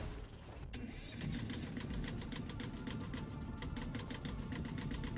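A boat's engine revs with a steady, throbbing drone and a fast pulsing beat, loud and alone without speech.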